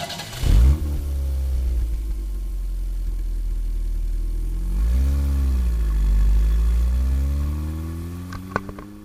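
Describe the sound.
A car engine catches with a brief loud burst, then runs low and steady before revving up midway and settling back to a smooth, even drone.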